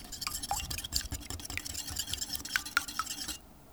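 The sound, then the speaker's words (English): An egg is scrambled in a bowl before being added to challah dough, giving many quick, light clinking and tapping strokes in an uneven rhythm, faint overall, stopping just before the end. “I'm gonna scramble it and then add 85 grams to the dough.”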